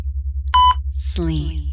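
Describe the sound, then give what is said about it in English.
A single short, steady electronic beep at a bright pitch, lasting about a fifth of a second, sounds when a button is pushed during the feeding of anesthetic gases. A brief voice-like sound follows the beep. “Each time I push that button, each time you hear the beep”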